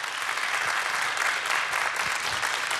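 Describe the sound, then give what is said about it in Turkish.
Audience applause after a musical performance by an orchestra, a dense and steady clapping that stays loud and even throughout with no voices standing out. “Onur Özel Çağlayan ve orkestrasına da güçlü bir alkış rica edebilir miyim efendim?”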